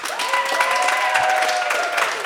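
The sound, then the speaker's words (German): Audience applause rolls on at a steady, full level, a thick crackle of many hands, while a high, sustained whistle-like tone runs through most of it and sinks slightly in pitch. “habe somit eine sehr einfache Rechnung von 30 Punkten, die nachdem ein Applaus erfolgt,”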